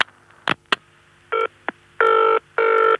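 Telephone line sounds as a call is put through: two sharp clicks, a brief tone and another click, then two longer electronic ring bursts, clear and loud, with no talking.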